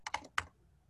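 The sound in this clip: Typing on a computer keyboard: about three quick, light key clicks come in a short burst, then fade into quiet. The keystrokes are faint.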